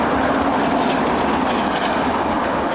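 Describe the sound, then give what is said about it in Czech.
Passing train on a railway line, a loud continuous rumble and rattle of wheels on track, holding steady without letting up. “Frekventovaná silnice, železniční trať a právě v tomto úžasném kontrastu divoká příroda. Přesunuli jsme se o pár desítek metrů dál, počkali, až přijede vlak”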